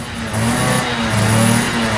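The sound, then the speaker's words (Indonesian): A motorcycle engine revs loudly as it arrives to pick someone up. The strong, continuous mid-pitched roar wavers up and down in pitch with each twist of the throttle, with no voices over it. “Lo serius jemput gua pakai motor kayak gini?”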